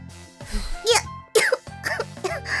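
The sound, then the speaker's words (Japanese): Someone coughing and choking on cigarette smoke: several harsh, voiced coughing bursts in quick succession, separated by short gasping pauses. “それでむせてんじゃ吸えないよ。”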